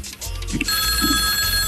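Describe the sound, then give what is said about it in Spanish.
A telephone rings for an incoming call, a steady electronic trill with bright, sustained tones that sets in partway through and continues over a dense, busy background. “Llamada telefónica, Salserito, escuchemos quién está en la línea.”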